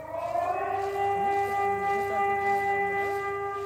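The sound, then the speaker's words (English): Air raid sirens wail over Slavske, Ukraine, on Independence Day under wartime alert. Loud, sustained layered tones hold steady with a slight waver throughout, and no voices are heard. “air raid sirens rang out a handful of times.”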